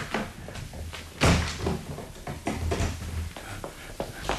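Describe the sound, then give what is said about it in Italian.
A door is hurriedly shut and locked with a key: one heavy thud, then a few faint clicks and rattles over a low, steady background hum. “Presto, chiudete e levate la chiave.”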